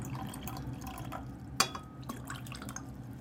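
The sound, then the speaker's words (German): Liquid dichloromethane, about 100 millilitres, poured into a flask over pieces of cut plastic sample. Quiet trickling and dripping run throughout, broken by one sharper knock partway through. “Und dann legen wir sie in einem Kolben in Dichlormethan ein. Ungefähr 100 Milliliter.”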